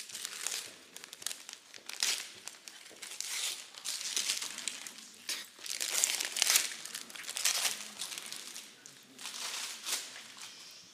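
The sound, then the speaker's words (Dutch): Paper crinkling and rustling as a package is unwrapped at a council meeting, with many irregular crackling bursts running continuously throughout. “Of zal ik hem dan even uitpakken?”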